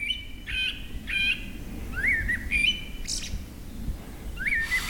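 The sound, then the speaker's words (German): Forest birds singing in the evening, a few separate whistled phrases and chirps repeating at intervals over a soft, constant background hiss, fairly faint overall. “Eine Runde mit Abendkonzert der Waldvögel.”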